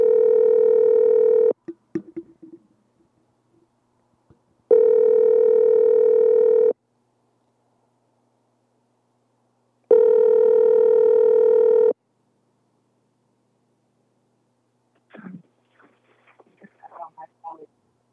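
Telephone line tones while callers are being reconnected: three long, steady, humming tones separated by silence, then a scatter of short clicks and blips near the end.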